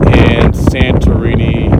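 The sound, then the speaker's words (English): Wind blowing across a mountaintop between Ios and Santorini, Greece, buffeting the microphone with a loud, steady low rumble and rough, gusty texture that lasts the whole clip. “The wind is blowing”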